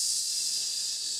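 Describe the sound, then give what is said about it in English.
Hiss of air deflating, used as a sound effect: a steady, loud, high-pitched hiss sustained alone for about a second. “That is the air deflating from the Christine Ford, Brett Kavanaugh story.”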